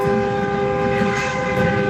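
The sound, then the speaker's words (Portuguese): A horn honking in a celebratory honking chorus: one loud, sustained, steady multi-tone blast that holds unbroken for the whole clip without any pause. “É, bora buzinar, vai, bora buzinar, que tá bonito de ver, vai.”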